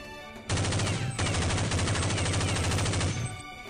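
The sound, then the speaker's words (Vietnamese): Rapid gunfire erupts suddenly from behind, a loud, dense, continuous rattling burst lasting about three seconds before cutting off, with no voices. “Bỗng nhiên, phía sau vang lên tiếng súng dồn dập giòn tan, cắt đứt lời của hắn ta.”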